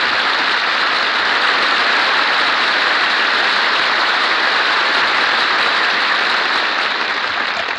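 An audience applauds after a song, giving a loud, dense, continuous wash of clapping that stays level from start to finish.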